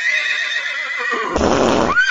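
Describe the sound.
A horse neighs in one long, high, quivering whinny with a rich harmonic tone, which breaks into a rougher, noisier burst near the end.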